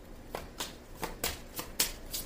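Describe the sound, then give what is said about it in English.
Tarot cards being shuffled and drawn: a quick run of soft, evenly spaced riffling bursts, faint and papery, with no talk. “I'm going to take just a few more cards.”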